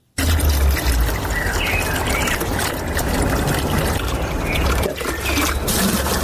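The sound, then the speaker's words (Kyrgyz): Water pouring into empty containers as residents of Osh store water during a supply shutdown, a continuous gushing splash that stays fairly level from start to finish. “бош идиштерди толтуруп суу камдоо менен алек.”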